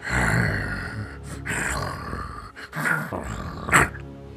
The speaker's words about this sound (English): It's very, very gentle growling.